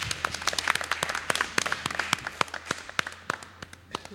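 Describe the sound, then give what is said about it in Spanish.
Sparse applause from a small group after a contestant loses a game: distinct, separate claps come in an irregular but steady patter, fairly quiet, without talk. “Un aplauso, venga, que lo he intentado.”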